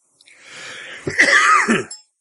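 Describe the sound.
Coughing and throat clearing brought on by a tickle in the throat: a raspy, rough burst lasting about two seconds, heard alone without talk.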